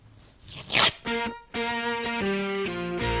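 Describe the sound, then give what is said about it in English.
Packaging around bonus material is peeled open, giving a crinkly tearing rustle that builds for about a second and cuts off sharply. “Yeah, it's like just a peel back. Like I can just kind of peel into the bonus material.”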